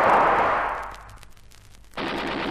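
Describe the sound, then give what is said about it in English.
Gunfire from enemy soldiers comes as a loud, noisy rush of rapid shots that thins into scattered cracks, then bursts back abruptly at full strength. “Watch the other blokes. They've opened fire on him. Shoot quickly.”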